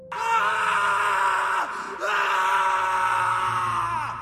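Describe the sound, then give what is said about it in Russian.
A harsh, furious dying scream rises from a forest: two long, loud, strained cries, separated by a brief break, with the pitch sliding downward near the end of each. “Из леса, откуда несколько минут назад убежала пара ученых, раздался крик. Резкий, яростный, предсмертный.”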